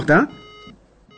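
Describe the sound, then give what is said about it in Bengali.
Electronic telephone tone after a line is cut off: a brief voiced sound, then a steady beeping tone that stops and resumes. “ঠিক সেই সময় টেলিফোনের line কেটে যায়”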